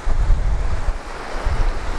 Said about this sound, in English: I'm just gonna try and get some of these waves. These waves are really good.